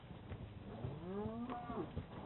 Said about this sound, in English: Now I can take this bunch of cows.